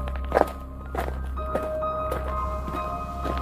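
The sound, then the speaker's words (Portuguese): Footsteps in thin-soled slippers climbing loose, wobbly wooden stairs: a few dull, hollow thuds at uneven intervals over a steady low hum. “Eu comecei a subir a escada. Os degraus estavam soltos bambos assim.”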